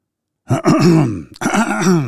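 A man clears his throat to bring up phlegm: two rough, gravelly rasps separated by a short pause, loud and close, with no other talk.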